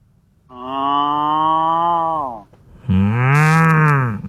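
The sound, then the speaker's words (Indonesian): A cow mooing: two long, loud, drawn-out moos separated by a short pause, the second one harsher and more strained than the first. “Sapi ini ocol. Sapi ini ocol.”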